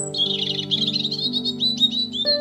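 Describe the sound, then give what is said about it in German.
Chicks chirping in a small bird nest tucked into the upper corner of a patio roof: rapid, thin, high-pitched tweets run almost without a break over a steady low tonal hum. “Du stehst auf, um dessen Ursache zu erkunden und blickst direkt in ein kleines Vogelnest.”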